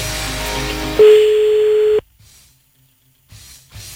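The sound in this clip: A telephone line tone sounds while a call is placed: a single steady mid-pitched beep lasting about a second cuts in after some music, then near silence with faint soft clicks.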